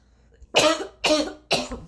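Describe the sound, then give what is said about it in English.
Three sharp, harsh coughs, evenly spaced about half a second apart, after a breath went down the wrong way; each is loud and raspy, with quiet between them. “Something, I went to take a breath and it went down the wrong way or something.”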